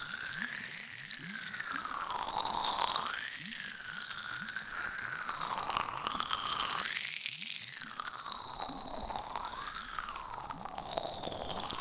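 Crunchy, crackling squelches of an ear being massaged with a special gel, a dense steady stream of small crackles over a soft background whoosh that swells and fades a few times.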